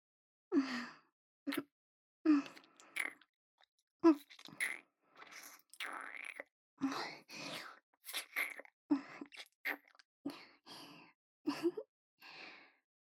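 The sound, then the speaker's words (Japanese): Kissing sounds in an intimate scene: many soft, wet lip smacks mixed with breathy sighs, coming in uneven clusters, faint and with no talk. “なかなかキスがうまいじゃない。いつもあの子とこういうキスをしているの？”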